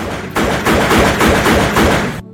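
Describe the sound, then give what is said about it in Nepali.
Gunfire breaks out during a school lesson: a dense, loud volley of rapid shots runs for about two seconds with no talk, then cuts off abruptly. “टाढाबाट बन्दुक पड्केको आवाज सुनियो। पहिला सबैले त्यो सामान्य ठाने, तर केही क्षणमै गोलीको आवाज नजिकिँदै गयो।”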